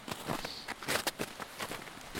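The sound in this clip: Footsteps walk onto snow, a series of soft, quiet steps in an uneven walking rhythm, heard alone.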